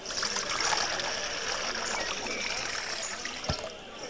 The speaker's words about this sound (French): Versez une troisième fois 4 cruches d'eau sur l'autel afin que le bois soit trempé et qu'il soit impossible à un homme de l'allumer.